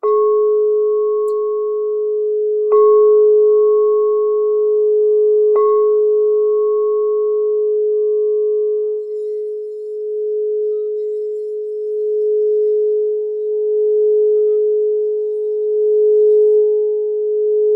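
A gold-coloured crystal singing bowl rings after three strikes. Each strike adds a brief higher harmonic that fades quickly, and a pure, steady low tone sustains throughout, wavering gently near the end.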